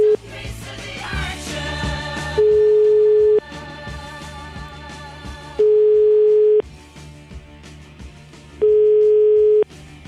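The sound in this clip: Telephone tone while placing a call: three long, steady, mid-pitched beeps repeat at even intervals over a busy background bed, each loud and separated by a quieter gap.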